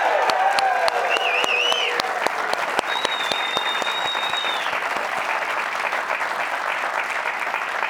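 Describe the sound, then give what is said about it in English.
A live studio audience at a BYU men's basketball show applauds and cheers with loud, continuous clapping and a few whistles rising above it. “We are joined by a live studio audience. They sound so good. Let's hear them again, shall we?”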